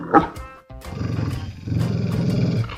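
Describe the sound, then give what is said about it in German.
Restless dog in a studio: a brief sharp vocal sound, then a stretch of low, rough, rumbling grumbling that grows stronger toward the end. “Ah ja, Herr, Herr Müller ist unruhig. Äh, ich weiß warum. Er muss dringend mal Gassi.”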